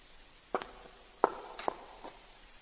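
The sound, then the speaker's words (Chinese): Footsteps walking and then halting: a few sharp, separate steps fall in an uneven rhythm, then stop and leave a short stretch of quiet at the end. “司藤的脚步猝然停止”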